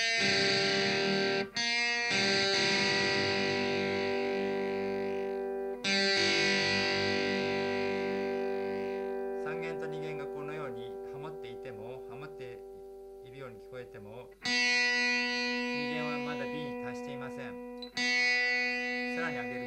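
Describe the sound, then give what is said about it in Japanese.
Guitar strings plucked one at a time during tuning, with the third string set to G and the second string brought to B; several sustained notes ring out with an effected, slightly distorted tone, each struck and left to fade. “3弦を G に合わせます。問題は2弦です。 B に合わせたいんですけれども、”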